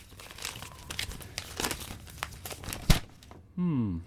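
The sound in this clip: Paper banknotes are crumpled and torn, with crinkling and ripping rustles running under a voice and a sharper tear standing out near the end.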